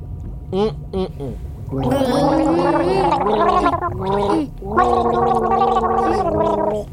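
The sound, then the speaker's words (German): People gargling water to the melody of a children's song, producing bubbly, wavering sung tones in two long loud phrases separated by a short break, after a few brief gurgles at the start. “Wollen wir zusammen nochmal was alle gurgeln?”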